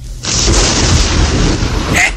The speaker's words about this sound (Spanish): El cielo se oscureció más y más, y se dejaron ver los primeros relámpagos provocados por los millones de voltios de los rayos.